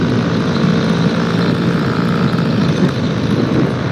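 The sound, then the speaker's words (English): Airplane engine droning steadily as the aircraft comes down to land in a field away from the runway, a continuous, fairly loud roar with no voices and no clear change in pitch. “He was trying to get back to the runway too, but at this point, he is already. He's landing somewhere in the field.”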